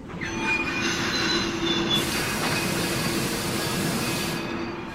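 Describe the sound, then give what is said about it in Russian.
Train brakes screeching as a rail car jolts and slows, producing a sustained, loud metallic squeal of the wheels over a continuous rushing rumble with no pause. “Вдруг вагон качнуло, тошнотворно заскрежетали тормоза.”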